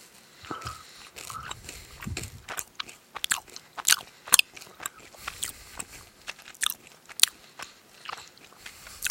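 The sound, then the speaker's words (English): Strawberry Pop Rocks candy being eaten, with many irregular sharp crackles and crunchy snaps scattered over a soft mouth noise. The sounds are fairly faint overall and there is no talk. “It tastes like watermelon Pop Rocks. Watermelon? Or strawberry Pop Rocks, I mean.”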